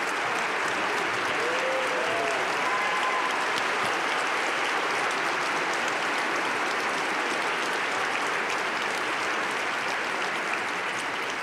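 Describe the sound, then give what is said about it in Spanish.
Sustained audience applause at a live concert, a dense, even roar of clapping from a large crowd that holds steady without a break for the whole span. “Cuando empezamos una carrera, los aplausos son después, pero para el maestro Arturo los aplausos tienen que ser ya antes.”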